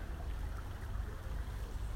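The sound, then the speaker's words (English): Steady rushing of a stream flowing beneath an old stone pack horse bridge with moss-covered walls in a nature reserve, a continuous low, even wash of water noise with no voices. “And there's this lovely stream that runs all the way down through the nature reserve. And we're currently stood on a little old pack horse bridge”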